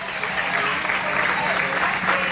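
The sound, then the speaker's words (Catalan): Football stadium crowd applauds in minute 21 as a tribute to Dani Jarque. The clapping is steady and dense throughout, a continuous wash of hands without pauses. “Minut 21 a la Dani Jarque. Aplaudiments a la graderia.”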